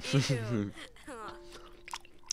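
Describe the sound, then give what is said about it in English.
Close-up chewing and biting of an orange, with a few soft, wet mouth sounds and crunches mixed in with a quietly speaking voice. “I'm eating an orange, guys. Okay. You're about to get some orange ASMR.”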